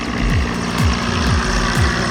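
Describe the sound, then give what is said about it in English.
A fire helicopter circles a burning warehouse, its rotor beating out four regular low thumps over a steady engine drone at moderate loudness. “That's the sound of a fire helicopter circling a warehouse that belongs to the country's version of Amazon.”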